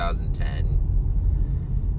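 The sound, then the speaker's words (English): A low, steady rumble of a car being driven home after food deliveries, continuous throughout, with a voice speaking briefly over it at the start. “And as you hear the car rumbling in the background, I am just coming home from delivering a couple of Uber Eats deliveries.”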